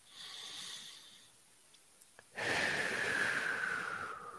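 A slow, deep breath drawn in: a soft, steady airy rush that starts suddenly and holds for about two seconds. It is faint and heard alone, with no talk.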